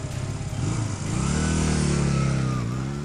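A motorcycle engine revs and pulls away in pursuit of a sports car, its steady rumble climbing in pitch and loudness after about a second, then holding a strong drone.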